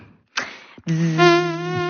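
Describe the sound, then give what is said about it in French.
A human voice imitates a buzzing mosquito. A short breathy burst comes first, then a brief pause, then a steady, nasal, whining buzz held at an even pitch for about a second. “Vous faites bien le moustique. Hein. Ouais, je fais encore mieux que le bruitage.”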